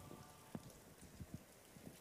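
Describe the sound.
Rain falling on the roof of Milan's cathedral, a faint, steady patter with a few slightly louder drops tapping through it.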